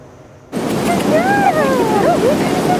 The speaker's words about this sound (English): The wind was brisk, but that didn't stop the Paul family from coming to Blackie Spit Park to clear their minds.